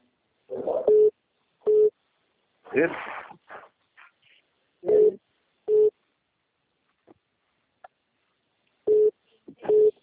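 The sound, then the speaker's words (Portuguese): Call-waiting tone on a phone line signalling another incoming call, three pairs of short, steady mid-pitched beeps spaced apart, with people talking in between. “Estão ligando aqui de novo? Você está recebendo outra ligação?”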